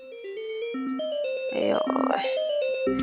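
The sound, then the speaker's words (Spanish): A phone ringtone announces an incoming call, a loud melodic run of bright stepped tones that plays continuously through the whole stretch. “¿Te están marcando? ¿Te están marcando?”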